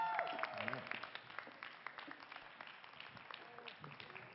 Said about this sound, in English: So let's give a New Life Church welcome to Pastors Fred and Valerie Bennett.